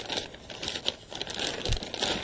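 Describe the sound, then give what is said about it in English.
Bubble wrap crinkling as it is thrown into a shipping box: a continuous, dense plastic rustle with scattered sharper crackles throughout, fairly quiet, with no talking. “So I'm throwing the bubble wrap into the shipping box”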